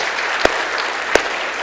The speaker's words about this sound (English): Let's give her a little hand.